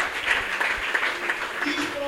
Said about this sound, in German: Einen großen Applaus.